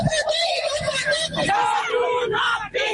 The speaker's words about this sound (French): Hier, des manifestantes ont donc crié leur colère à Dakar.